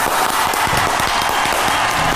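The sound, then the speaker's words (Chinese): Audience applause greets a guest walking on stage at a televised studio event. The clapping is dense, loud and steady throughout, with a few low thumps mixed into the wash of claps. “好，我们掌声有请胡经理上场。”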